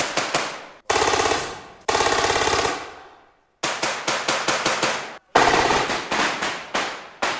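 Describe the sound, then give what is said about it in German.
Gunfire from a dynamic urban house-to-house combat demonstration. Loud rapid shots come in several bursts: some are sustained and ringing, others are quick strings of separate cracks, with short silent gaps between the bursts. “Hier wird der dynamische Häuserkampf jetzt vorgeführt. Und das heißt, es wird laut und es wird geschossen.”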